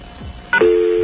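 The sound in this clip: Telephone tones after misdialing a toll-free collect-call number: a brief higher beep, then a steady, continuous low tone that holds to the end.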